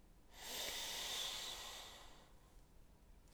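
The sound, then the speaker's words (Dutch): A single long breath during a guided prayer breathing exercise makes a soft, airy hiss that swells and fades over about two seconds, quiet and alone. “En adem in.”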